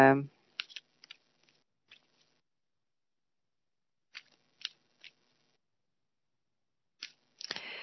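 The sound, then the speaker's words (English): A deck of cards is shuffled in short, crisp riffling bursts that come in small clusters, separated by stretches of near silence. “So indeed, I am doing the shuffle, and whoever wants a card, you know what to do.”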